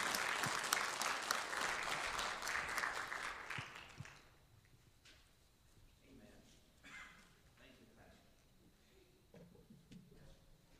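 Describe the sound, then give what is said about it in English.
Church audience at an Assembly of God service applauding to welcome a guest speaker: loud, sustained clapping from many hands for about four seconds, then cutting away to quieter talk. “And so let's give it up for Lynn Wheeler. Welcome him to Noble Assembly of God.”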